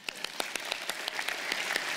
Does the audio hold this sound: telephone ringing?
no